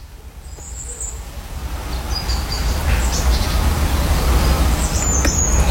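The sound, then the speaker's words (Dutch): Morning birdsong: faint high chirps and calls over a steady, dense background hiss that swells slightly. “De vogels die mij aanmoedigen om uit bed te komen.”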